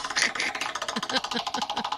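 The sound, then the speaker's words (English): A prize wheel spins during a game, giving rapid, evenly spaced clicking that rattles on steadily from start to finish. “All right, here we go. Let's spin the wheel”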